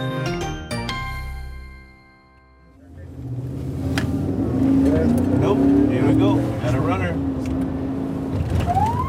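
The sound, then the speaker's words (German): A border police car accelerates near the border fence at El Paso, its engine a loud, steady rumble building after a brief lull, with people talking over it. “gibt Gas und schaltet kurz das Blaulicht ein”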